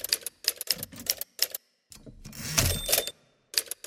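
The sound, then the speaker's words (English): Typewriter keys clack in short, irregular bursts of sharp strikes, broken by a longer, busier rattling stretch in the middle, with a few more separate keystrokes at the end. “I'm not very good at this and sometimes I have to backspace over words and type X's through them”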